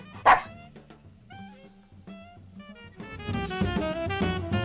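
A dog barks and yips: a sharp bark at the start, then a few higher, tonal yips, with a fuller, busier sound building up toward the end.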